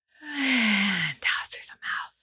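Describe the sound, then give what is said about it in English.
A deep breath drawn in through the nose and then let out, taken during a guided cleansing-breath exercise. A long, steady rush of breath comes first, followed by a couple of shorter airy exhalations, with no talking. “we're going to breathe in through our nose. We're going to hold for a few beats, and then we're going to exhale.”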